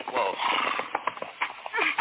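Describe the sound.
A horse's hooves clop unevenly as pack animals are led toward a rope bridge at night, the muffled, thin-toned steps mixing with a voice.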